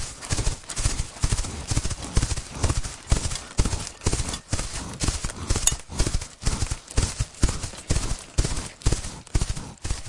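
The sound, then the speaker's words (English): Hooves of majestic horses pulling carriages decorated with twinkling lights clatter in a dense, rapid, continuous clip-clop, loud and rhythmic throughout with no pauses. “Carriages decorated with twinkling lights and pulled by majestic horses,”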